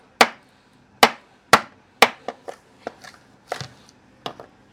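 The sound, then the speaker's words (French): A knife chops red mullet fish bones into small pieces on a board: four heavy, sharp blows, then several lighter, quicker chops, each a crisp knock with a short ring. “Ensuite, les arêtes, ce qu'on va faire, on va les concasser. Concasser, c'est-à-dire qu'on va couper en petits morceaux et on va les mettre à dégorger dans de l'eau pour pouvoir enlever tout le sang. Donc avec le couteau on les casse.”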